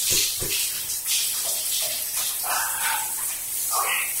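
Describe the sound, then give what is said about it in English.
Running water while someone washes their body, a steady, full hiss of flowing water with shifting splashes and spatters throughout. “I'm washing my pits and, you know, the taint area.”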